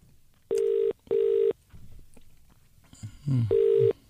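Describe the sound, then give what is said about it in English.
Steady telephone tones sound as a call is dialled and rings through. Three even beeps are heard: two close together, then a gap with a brief noisy burst before the third. “Give me your phone. I'll just try and ring him now. Well, he said he'd be available, so. I'll just dial this in and we'll see if we can get to.”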